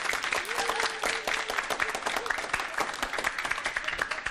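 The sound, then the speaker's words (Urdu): A studio audience at a quiz show applauds a team's correct answer: dense, rapid clapping that holds steady and grows slightly stronger toward the end. “زوردار تالیوں سے ان کی حوصلہ افزائی کیجیے”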